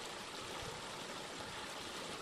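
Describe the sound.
Water pours from a pipe that comes out of a mountainside beside a road in Itmann, Wyoming County, fed from an abandoned coal mine. It makes a constant, broad rushing splash with no voices.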